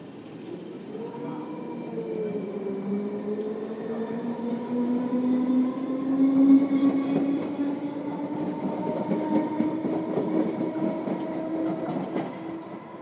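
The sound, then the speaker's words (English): A passing train makes a strange, yawning groan: several drawn-out tones bend slowly in pitch over a steady rolling rumble that lasts about thirteen seconds. “That was a very strange sound. It was. Woo! It was really weird. It's sort of like a train version of Vance yawning. Maybe the train was yawning.”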